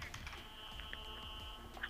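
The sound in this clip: Someone types on a computer keyboard, producing faint, quick, irregular key clicks over a steady background tone.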